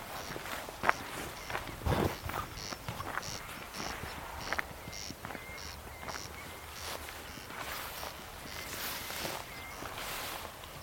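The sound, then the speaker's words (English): Two corncrakes on the island of Tiree call back and forth in a near duet. Faint, dry rasping pulses repeat in a steady rhythm against quiet background noise, with no voices. “there is very definitely a corncrake. responding to another one over there. There's two.”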